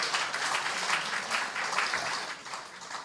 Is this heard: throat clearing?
no

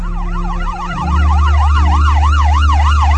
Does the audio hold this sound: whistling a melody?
no

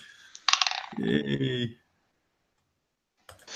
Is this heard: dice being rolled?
yes

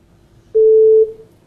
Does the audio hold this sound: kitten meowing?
no

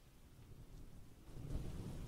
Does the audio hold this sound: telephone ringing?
no

